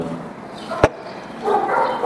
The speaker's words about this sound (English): excuse the dogs